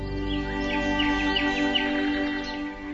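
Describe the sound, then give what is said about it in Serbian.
Birds sing at dawn as they leave their nests, with a cluster of quick, high chirps and tweets through the middle over a steady tonal hum. “a ptice napustiše svoja gnezda i veselom pesmom pozdraviše jutarnju rumen”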